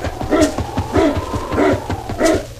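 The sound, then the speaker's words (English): A team of sled dogs barking and yipping, with four strong bursts of barking at a steady, repeating rhythm, loud and without talk. “Say, that's a dog team.”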